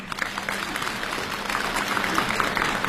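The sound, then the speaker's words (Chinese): Audience applause at a live crosstalk comedy show in Beijing: dense, steady clapping from a large crowd, holding an even level for the whole stretch. “感谢朋友们的掌声。”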